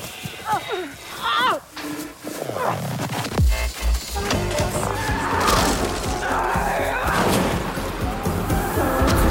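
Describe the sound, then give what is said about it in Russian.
A car backing out of a garage smashes into a neighbor's car with shattering glass, a dense, loud burst of crashing and clattering debris filling the second half after quieter mixed sounds at the start. “Врезается в соседскую машину. Летят тысячи осколков.”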